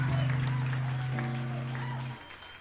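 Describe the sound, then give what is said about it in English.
Audience applause fills a pause between tunes at a live music performance, a dense, even patter of clapping over a low sustained tone that thins out and fades toward the end. “You guys are good at clapping”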